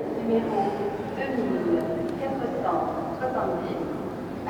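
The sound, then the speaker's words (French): Ambience of the Strasbourg train station carries a steady, dense murmur of indistinct voices and general hubbub at an even level throughout, with faint higher clinks and chirps scattered across it. “on est à la gare de Strasbourg et en fait, là, je m'apprête à partir à Paris”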